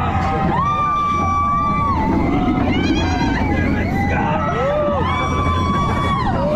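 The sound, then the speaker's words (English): Riders scream and shout on a steep roller coaster, with many overlapping high, wavering cries over a loud, steady rumble from the ride. “I'm one of the first people to ride the Iron Menace.”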